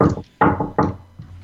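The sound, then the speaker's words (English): Four sharp knocks on a door come at an even, unhurried pace, each a solid hollow thud, with the last one clearly fainter. “I hear somebody knocking on the door.”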